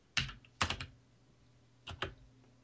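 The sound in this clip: A few sharp computer keyboard key clicks in two short clusters separated by a pause, fairly faint against a quiet background.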